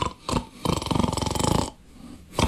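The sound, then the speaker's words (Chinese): A storyteller imitates snoring with his voice: a long, rattling, pulsing snore framed by short breathy vocal bursts, loud and alone. “还打上呼噜了”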